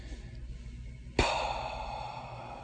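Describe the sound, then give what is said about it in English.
A breathy exhalation voicing the letter H: a sudden airy rush of breath starting about midway, loud at its onset and then slowly fading, with no other sound around it. “the letter P strikes the H, and the H is pronounced like an exhalation. Listen to that.”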